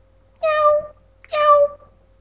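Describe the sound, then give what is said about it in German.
Cat meowing twice, each meow a clear, fairly loud, tonal call lasting about half a second, with a short pause between them and no other sounds. “Maunzt die Katze.”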